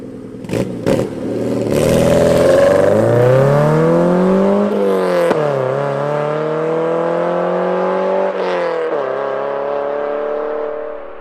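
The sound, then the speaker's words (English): A Porsche 944 engine revs in long swells: its throaty tone climbs, drops sharply, climbs slowly again and falls once more. Two brief clicks come just before. No voices are heard. “Adrian Bradshaw drove, at the time, a Porsche 944, which sounds like this.”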